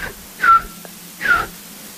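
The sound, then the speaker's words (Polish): Soft whistling imitates a bullfinch's mournful call. Two clear, gently falling notes are heard, with clipped partial notes at the start and end and quiet gaps between. “I jeżeli gdzieś usłyszymy takie smętne pogwizdywanie gila, to jest takie...”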